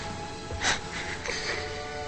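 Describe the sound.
Ragged, rasping breathing of a dying woman in a drama, heard as a few short, breathy bursts with a strained, wheezy edge over a quiet background.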